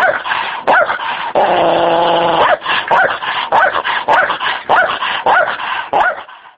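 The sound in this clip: Stray dogs bark over and over in sharp, loud bursts, with a drawn-out, tonal growl partway through before the barking resumes.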